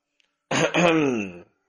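An old man clears his throat once: a single gruff, low rasping hem lasting about a second, abrupt at both ends, with no talk around it.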